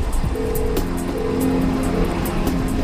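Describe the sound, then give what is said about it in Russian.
A car drives along in jerks, giving a steady, dense engine rumble with low wavering hum tones that shift slightly as it moves. No voices. “Машина движется рывками.”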